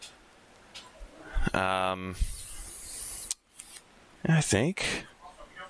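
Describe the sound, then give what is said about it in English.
Crinkling and tearing of plastic packaging as trading card structure decks are opened and unpacked, in a few sharp, rasping bursts against a quiet background. “I just need to open up the three structure decks that I bought and, you know, just kind of take it apart, pull the good cards out.”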